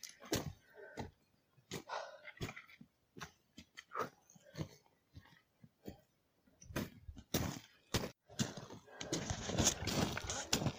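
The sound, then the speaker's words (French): Footsteps climbing a limestone scree slope: many faint, irregular crunches and clattering knocks of loose stone, with the scrabbling growing denser toward the end. “Donc là, on est en train de, comme vous l'entendez, de grimper un pierrier de calcaire.”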